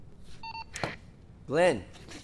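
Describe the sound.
A short electronic keypad tone sounds as a telephone number is dialed, followed by a sharp click and a brief voiced sound. The tone is quiet under a soft background hiss.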